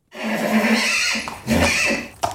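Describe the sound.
An aged pony whinnies at a horse boarding stable: two long, loud, wavering neighs separated by a brief pause, then a short sharp burst at the end.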